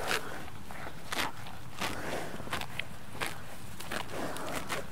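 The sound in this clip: Buffalo tearing grass while grazing outside: many irregular, crisp ripping and crunching bursts scattered over a steady low rustling background, with no voices.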